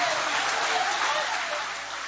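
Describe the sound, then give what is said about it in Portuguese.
A church audience applauding during a worship service, a dense, steady wash of clapping that holds at an even moderate level and eases off slightly toward the end. “Podem aplaudir a Deus com alegria. Pode glorificar ao Senhor.”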